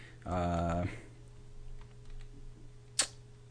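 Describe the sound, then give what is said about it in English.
Faint keystrokes on a computer keyboard while writing code, with one sharper key press standing out near the end. “I'm going to hit enter return a couple times. And I'm going to hit two forward slashes and then a bunch of dashes. And I'm just going to type”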